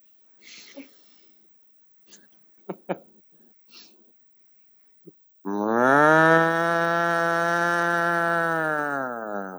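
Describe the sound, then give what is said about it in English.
A person imitates a cow's moo with a low, throaty voice: one long, loud, steady moo lasting about four seconds, after a few faint breaths and small mouth clicks. “do my cow call. And you tell me if it sounds pretty legit or if it's terrible.”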